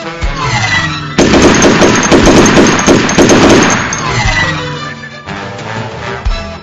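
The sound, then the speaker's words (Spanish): Machine-gun fire and gunshots crack through a battle attack. A loud, dense burst of rapid shots fills the middle, with lighter bursts of fire before and after it. “¡Vienen del norte! ¡Vienen tirando balazos!”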